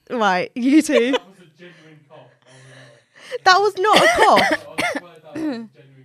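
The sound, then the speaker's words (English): Several people cough and clear their throats in short, rough bursts mixed with voiced gasping sounds, gathered in two clusters separated by a brief quieter stretch. “Everyone coughed? I'll cough one more time.”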